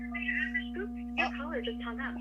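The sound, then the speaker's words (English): After a caller hangs up, a steady, low telephone line tone hums on without a break while a voice talks over it. “Your caller just hung up. Goodbye. He just hung up.”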